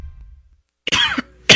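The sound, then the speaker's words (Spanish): Coughing from a boy who is ill with body aches: two harsh bursts, the first longer with a rough tail, the second short and abrupt, after a near-silent pause. “Sí, mamita, me duele todo el cuerpo y estoy con una tos insoportable.”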